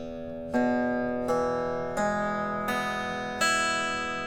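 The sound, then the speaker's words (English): An acoustic guitar tuned to open E is strummed as an open E chord five times, each bright strum ringing out and slowly decaying before the next, alone with no talk. “Boom, and just like that, we are in open E tuning. It sounds like this.”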